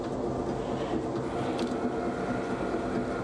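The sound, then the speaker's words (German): A bakery machine portions wet, sticky bread dough with a continuous mechanical rumble and clatter that holds a steady level throughout, without pauses or voices. “Weil der Teig so nass ist, übernimmt die Maschine das Portionieren.”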